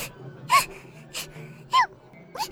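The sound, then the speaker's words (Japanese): A child cries in four short, sobbing wails separated by gasping breaths, each burst rising and then breaking off, over a low, quiet background. “ほら、そんなに泣いたら目が腫れちゃうぞ。”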